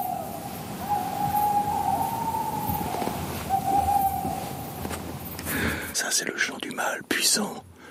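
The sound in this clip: Territorial hooting of a male tawny owl as it leaves its daytime rest to go hunting, a long wavering hoot in two parts over steady background hiss, with a noisy stretch at the end.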